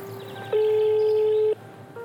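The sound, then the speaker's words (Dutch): A telephone tone as a call is dialed. A steady mid-pitched tone holds for about a second, stops briefly, then sounds again over a faint background hiss. “We bellen met meneer Van Ommen van fietsroutenetwerk.nl.”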